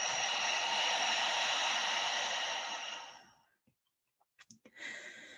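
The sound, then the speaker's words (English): A deep breath drawn in through the nose and released through the mouth: a long, steady airy rush lasting about three seconds that fades away, followed by a few faint clicks and the start of another breath. “So big breath in the nose. Exhale out the mouth.”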